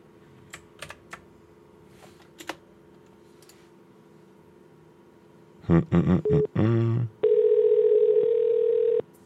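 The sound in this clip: A phone line rings after a number is dialed with a dialing prefix. A quick run of dialing tones is followed by a steady, buzzing ring tone that holds to the end. Earlier, faint keyboard typing clicks are heard.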